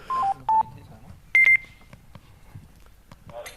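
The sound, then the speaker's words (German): A few short electronic telephone beeps signal an incoming call during a live-streamed stage show. The clear, steady tones come alone in separate bursts, the first stepping down in pitch, with quiet background noise between them. “Oh, wir haben einen Anruf.”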